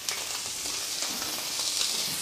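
Meat searing in a hot pan over high heat gives a dense, steady hiss of sizzling and crackling, even in loudness throughout with no talk.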